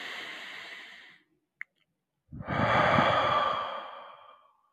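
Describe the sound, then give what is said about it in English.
A deep breath in during a guided mantra exercise: two breathy rushes with a brief click between them. The second rush is louder and longer, swelling and then fading away. “Deep breath in.”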